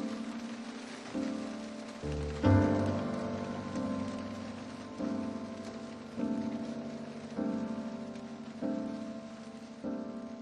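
Rain falling as a continuous soft hiss, heard alone without talk, under a slow series of regular tonal pulses that repeat roughly every second.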